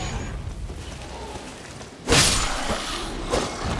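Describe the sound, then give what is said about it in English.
Barrels being smashed in a video game: a sudden, loud crashing burst cuts through a low rumbling background, and a smaller crunching hit follows shortly after. “to smash some barrels and then it reveals like a secondary path or whatever”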